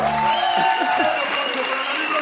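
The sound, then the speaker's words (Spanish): Studio audience applause on the late-night show La Resistencia: a thick, continuous clapping with shouts and cheering mixed in at a steady, loud level. “Un aplauso para Ignacio Parra y para Luis Mi Petróleo.”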